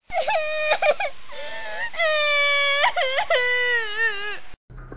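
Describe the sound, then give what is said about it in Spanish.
A voice performs a frightened girl whimpering and crying, with a series of high, wavering wails and sobbing moans. Each cry bends in pitch, and short gaps separate them before the sound cuts off near the end. “Gretel, asustadísima, comenzó a llorar.”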